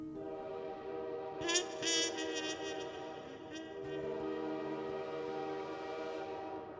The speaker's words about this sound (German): Hier bin ich also. Der Zug fährt gleich ab.